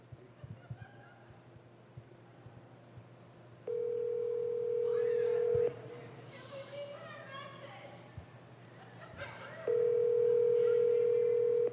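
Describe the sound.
Ringback tone of an outgoing phone call: two long, steady, mid-pitched tones separated by a pause, with people talking quietly in between.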